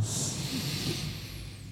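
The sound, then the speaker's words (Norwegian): Slow breath drawn in through the nose during a guided breathing exercise: a soft, steady, airy hiss lasting under two seconds, fairly quiet, with no voices. “Og inn gjennom nesa.”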